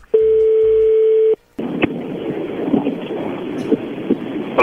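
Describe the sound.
A telephone call is placed: a steady dial tone sounds for over a second, then after a short gap comes hissing line noise with a few scattered clicks.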